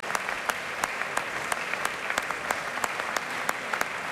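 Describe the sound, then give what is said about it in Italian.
Warm audience applause for a conductor and a full orchestra on tour. Many sharp, overlapping claps form a dense, even patter that continues steadily throughout. “Come si sente, c'è un applauso anche per lui, molto caloroso, anche per l'orchestra che è tutta schierata.”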